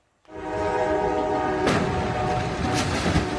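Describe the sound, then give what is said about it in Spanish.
A train crashes into a stalled tractor-trailer loaded with heavy pipes on the tracks in New York. A loud, continuous rail roar with a steady horn-like tone starts abruptly and holds, with sharper noisy bursts cutting through partway. “las impresionantes imágenes de un accidente de tren ocurrido en Nueva York.”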